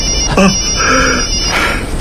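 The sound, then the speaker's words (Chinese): A telephone ringing: short electronic melodic tones, a brief note followed by a longer one, over a steady hiss. “我的电话。”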